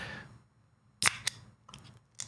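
A beer bottle being opened: a sharp hissing pop rings out, followed by a few shorter crisp clicks and bursts against near silence.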